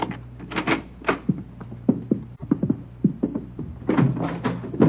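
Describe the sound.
The door of room 345 on a third floor is unlocked and opened: a busy run of clicks, knocks and rattles from the latch and door, with no talking.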